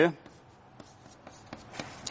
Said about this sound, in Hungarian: Ugye halványan rajzolom csak